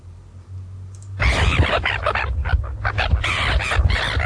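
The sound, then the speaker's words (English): Red-billed gulls call in harsh, raucous squawks. After a quiet opening second, a dense, noisy burst of overlapping cries begins and continues loudly to the end. “so let's go over some fun facts about the Taraponga. The Taraponga sounds like this.”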